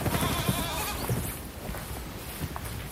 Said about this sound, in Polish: Więc chyba teraz jest czas, żeby pójść do tych kóz.